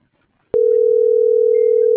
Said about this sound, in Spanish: Marcar otra vez.